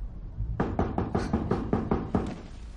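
Knuckles rap on a door in a quick, even series of firm, hollow knocks, moderately loud and alone.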